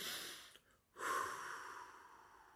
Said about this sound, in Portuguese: Vamos lá respirar fundo.